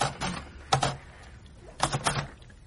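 Typing on a keyboard or typewriter as a statement is typed up: a few quiet bursts of rapid, crisp keystrokes separated by short pauses, with no voices.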